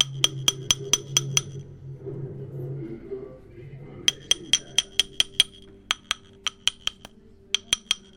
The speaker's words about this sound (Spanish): y ya lo podemos ir golpeando hasta que dé, vamos a ponerlo al 8 ya volteamos para que llegue al 8